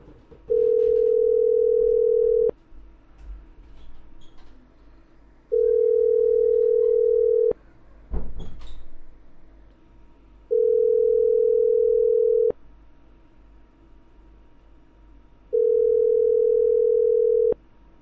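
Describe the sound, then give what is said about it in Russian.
Ringback tone of a telephone call that nobody answers: four long, steady mid-pitched tones of about two seconds each, separated by roughly three-second gaps, with a brief rustle between the second and third. “Эх, ребят, не берут трубку.”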